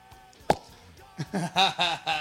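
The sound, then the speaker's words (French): A cork popping from a bottle of cheap red wine, one sharp pop on its own, followed by people talking. “Une bouteille de dégoupillé, voilà, du gros rouge.”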